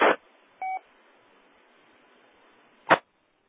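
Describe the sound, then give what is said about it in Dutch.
A single short DTMF telephone tone, a steady two-pitch beep lasting about a fifth of a second, over a hissing channel with brief bursts of static at the start and near the end. “Dus we weten ook niet hoe dat zal via DTMF gaan.”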